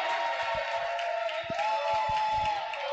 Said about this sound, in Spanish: Claro, el público le dedica unos cariñosos saludos porque se los ha ganado, claro.